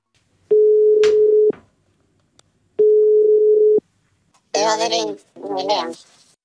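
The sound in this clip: Two long, steady telephone ring tones sound on the line as a call comes in, each about a second long with a pause between. Voices then talk.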